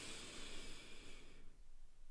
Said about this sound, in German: ein letztes Mal tief durch die Nase einatmen